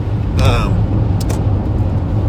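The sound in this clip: Steady low rumble of car traffic on the road, a continuous engine and tyre drone with brief whooshes of passing vehicles and a short voice cutting in near the start.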